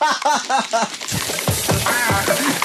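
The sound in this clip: Something is whisked into foam right at the microphone, with quick rhythmic scraping strokes that repeat several times at a brisk pace.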